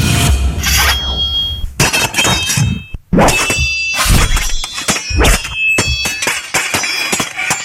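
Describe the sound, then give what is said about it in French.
Swords clashing: many loud, rapid metallic clangs and strikes, with bright ringing tones lingering between hits and a brief pause partway through. “je dirais que c'est un son d'épée. Ben oui, ce sont des épées”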